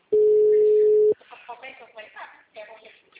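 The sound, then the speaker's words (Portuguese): A steady telephone dial tone sounds for about one second while a caller tries to place a call, then it cuts off and people talk. “Eu tô tentando ligar, tá na ligação aqui, ó.”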